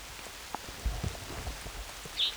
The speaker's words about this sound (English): One. Two. Raining. Three.